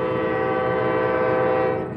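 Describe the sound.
A freight train horn blows one long, steady, loud blast over a low rumble, tapering slightly at the end.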